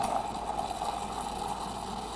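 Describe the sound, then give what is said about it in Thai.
Electric milk frother frothing milk: a steady, unbroken motor whir with a buzzy midrange tone all the way through. “แล้วก็เครื่องตัวนี้ทำฟองนมได้ดีเลยนะครับไม่น่าเกลียดไปกว่าไม่แบบเล็กแต่จิ๋วจริงๆนะครับเครื่องตัวนี้เนาะ”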